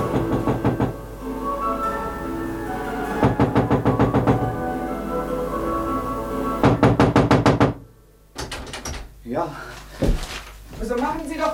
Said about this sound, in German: Wann schließen Sie sich denn ein? Ja, wir klopfen schon seit 5 Minuten, mein Herr.